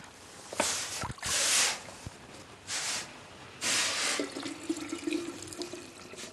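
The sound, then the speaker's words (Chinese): Freshly boiled water poured into a thermos flask, several short hissing gushes separated by brief pauses, followed by quieter trickling and drips. “水滚开了，把开水灌到暖壶里。”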